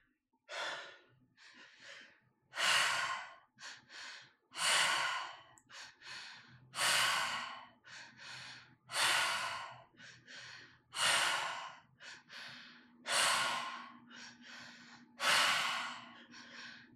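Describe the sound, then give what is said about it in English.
Slow guided breathing, in and out with ease. Many soft, airy breaths come one after another in a steady, unhurried rhythm, with short quiet pauses between them and no talking. “Just letting the breath wave in and out of the body with so much ease.”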